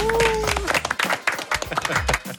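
Schoolchildren clap briefly for a classmate praised for her top grades. The claps are distinct and uneven, forming a short, lively burst from a small group rather than a large crowd.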